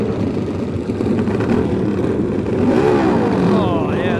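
Racing motorcycle engine from a 350cc and 500cc solo race meeting roars in a loud, steady drone throughout, and a rising whine emerges near the end.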